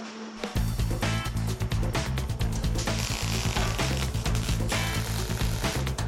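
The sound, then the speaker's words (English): MIG welder fusing thin metal: a continuous crackling, sputtering buzz over a steady low electrical hum, starting abruptly and running unbroken to the end. “Now, this heats up the metal real quick, huh? Because it's so thin. But because it's a MIG weld”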